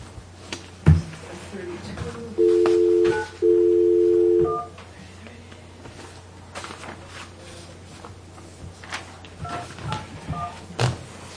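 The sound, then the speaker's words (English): Two telephone keypad tones sound as 9 and then 1 are dialed. Each is a steady beep lasting about a second, separated by a brief gap, set amid low background noise and scattered knocks. “Dial 9, then 1, right?”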